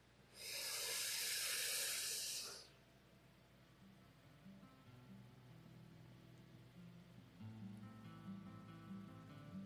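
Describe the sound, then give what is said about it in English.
A single deep breath in, taken during a guided breathing exercise for healing, sounds as a loud, airy rush of inhaled air lasting about two seconds before it cuts off. Softer low tones continue underneath afterward. “So let's go ahead and take a deep breath in.”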